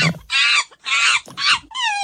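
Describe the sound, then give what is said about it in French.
Shrill, harmonic calls of a Barbary macaque at a monkey park near Colmar in Alsace come in four short bursts with brief gaps. The first bursts are raspy squeals and the last is a cleaner tonal cry. “Eh non, c'est un singe. Un magot, ça se passe à Kinsheim, près de Colmar, dans la montagne des singes.”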